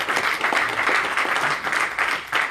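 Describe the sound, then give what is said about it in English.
An audience clapping their hands during a preacher's message, a dense, continuous patter of many hands with slight surges and dips and no speech over it. “I mean, seriously, if I'm talking to you, I want you to clap your hand.”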